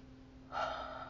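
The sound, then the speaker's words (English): A single deep breath drawn in during a guided relaxation moment: after a quiet pause, an airy, sustained inhale starts midway and holds steady for about half a second, soft and alone with no talk. “So let's just take a few minutes, take a deep breath,”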